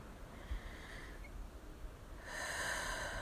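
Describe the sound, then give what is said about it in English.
A slow exhale, a faint airy hiss of breath that swells near the end and holds steady, with no talking. “So here today, right now, like, I'm exhaling with you.”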